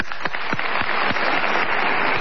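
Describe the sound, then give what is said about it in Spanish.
Voices imitate the applause of a large crowd, producing a dense, steady, breathy crackle of mouth-made pops and hiss that is held evenly for about two seconds with no clear words. “Mire cómo limito aplauso de mucha gente, Vigano.”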